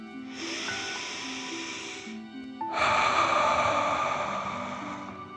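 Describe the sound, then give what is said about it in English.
Two deep, breathy hisses come from a slow breath in and out during a calming dragon-breath exercise for children. The first is long and soft. After a short pause, a louder, longer breath follows and gradually fades. “Let's take another 3 deep dragon breaths. Deep breath filling up your belly in and out.”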